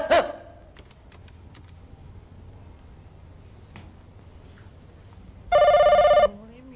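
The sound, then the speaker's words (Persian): An office telephone rings once, a bright, loud electronic trill that bursts out near the end after a long quiet stretch with a few faint clicks. “آهای یکی بیاد این تلفن رو برداره.”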